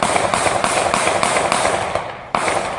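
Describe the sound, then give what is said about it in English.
Multiple gunshots ring out in a recorded clip of a real shooting: a run of sharp cracking pops at a fairly even pace over loud, harsh noise, then a brief gap before one last shot. “That's the actual shooting. There are multiple shots fired”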